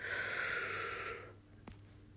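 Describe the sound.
A deep breath drawn in: a soft, airy inhale lasting about a second, heard alone, then fading into near silence.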